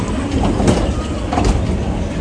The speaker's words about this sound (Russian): Осторожно, дверь закрывается. Следующая остановка Лютонская. Во избежание падения во время движения. Держите, пожалуйста, за поручень.